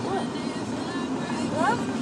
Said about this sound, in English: Sorry, we're in a car. You couldn't tell.